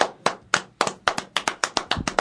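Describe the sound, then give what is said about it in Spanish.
Hand clapping: a run of many sharp, distinct claps in a fairly steady rhythm that quickens toward the end, alone with no voices. “Van a seguir aplaudiendo toda la noche.”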